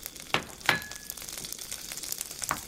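Eggplant fries in a pan with a faint, steady sizzle, broken by a few sharper pops and crackles.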